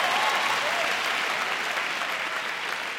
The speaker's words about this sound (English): Well, if you're going to clap, you better clap. Or otherwise, don't clap at all. Don't give me a half-hearted clapping here.